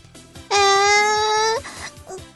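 Someone cries out in a loud, sustained wail that lasts about a second, then tapers off against a quieter background.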